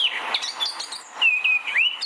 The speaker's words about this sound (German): Bei dem eben gehörten Vogel handelte es sich um eine Mönchsgrasmücke.